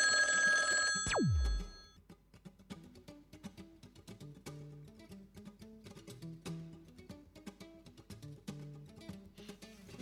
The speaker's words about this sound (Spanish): Ya hemos llamado a un teléfono de la característica 71, correspondiente a Palermo.